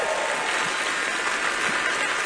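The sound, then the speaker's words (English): Audience applause at the Grand Ole Opry country music show, an even, continuous spatter of clapping with no voices over it. “Y'all can clap for that.”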